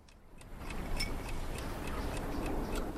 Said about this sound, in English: Allison takes her clock from her bag and puts it on a shelf